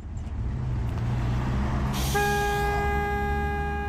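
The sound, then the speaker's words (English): Heavy traffic on a busy Johannesburg route: steady low engine rumble, a burst of air hiss, then a long, steady vehicle horn blast that holds to the end. “Brimson's store is in a nondescript side street near one of Johannesburg's busiest routes.”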